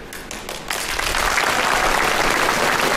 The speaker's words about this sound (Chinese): 都鼓掌了，走啊